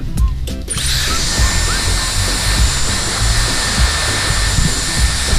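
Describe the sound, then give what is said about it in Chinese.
A hair dryer blows with a loud, steady motor whir and rushing air. It switches on within the first second and runs on continuously without pause. “给大家先演示一下这个吹风机的作用吧。”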